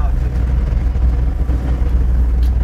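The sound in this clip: A car driving past burned houses, heard as a steady low engine rumble and road drone that stays loud and continuous throughout with only slight swells.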